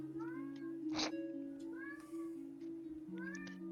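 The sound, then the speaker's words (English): A cat meowing in a video game: a few short, rising-then-falling meows that are faint over steady, sustained background music tones. “This is my non-exotic cat.”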